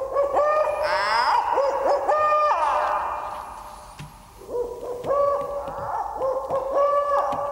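An owl hoots as a sound effect. A few clear, tonal hoots repeat at irregular intervals, fairly loud and alone with no talk.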